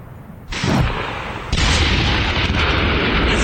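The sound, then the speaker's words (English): Artillery fire and gunshots during a military war exercise: two sharp, loud blasts early on, the second opening into a heavy, continuous roar of booming and crackling fire that runs to the end. “The war scenario is well underway. You can hear snipers, there's artillery”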